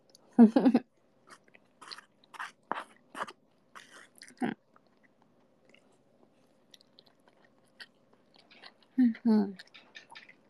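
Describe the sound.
Chewing sounds from someone eating eel come as irregular soft crunchy bursts, a few louder, separated by quiet pauses.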